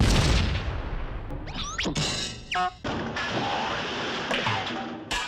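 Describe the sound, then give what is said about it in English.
Bombs explode in a video game: a continuous wash of loud, noisy rumble with a few sharp crashing hits standing out near the middle. “Don't mind me, just testing some bombs.”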